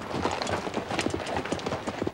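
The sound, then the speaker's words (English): Horses' hooves move out from the trees onto a rocky shore, a quick, uneven clip-clop of many hoofbeats at moderate volume. “At the signal, the Yankee troopers move their horses out of the cover of the trees and onto the rocky shore.”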